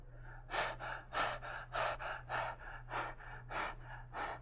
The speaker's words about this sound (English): now open your mouth and very deeply breathe in and out until I tell you to stop